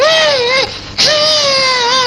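A little girl cries loudly, a high wavering wail that breaks off briefly and then resumes in a second long, sobbing cry.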